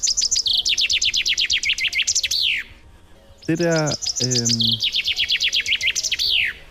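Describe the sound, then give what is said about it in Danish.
Chaffinch song: two bright, rapid trills that descend and end in a sharp flourish, loud and clear, separated by a lower, harsher harmonic call. “Det er ikke en blommeise, fordi blommeisen siger kortere lyde. Jeg tror, det der det er en grænsanger. Nej, er det rigtigt? Det er bogfinken.”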